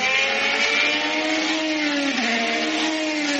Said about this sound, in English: The traditional sounds of Formula One racing are slowly giving way to the sounds of Formula E.